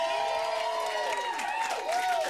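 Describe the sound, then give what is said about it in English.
A live studio audience at a radio session at Fantasy Studios cheers, with whistles that swoop up and down over a soft, steady crowd murmur. “We've got a friendly crowd of foghead fish heads here.”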